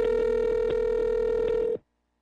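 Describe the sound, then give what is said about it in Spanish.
An incoming phone call's ringing tone: a steady, buzzy electronic tone holds at one mid pitch, pulsing faintly, then cuts off sharply into silence near the end. “Y en ese momento entra la llamada.”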